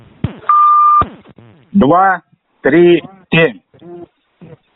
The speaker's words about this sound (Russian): Активированная система фиксации банка подключена. После звукового сигнала продиктуйте код.